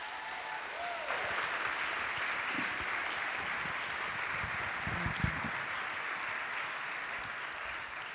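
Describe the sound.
Sustained audience applause welcoming a speaker to the stage. Dense clapping swells in after about a second and then keeps up at an even level to the end.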